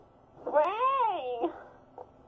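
A cat gives a single drawn-out meow that rises and then falls in pitch, followed by a brief faint sound.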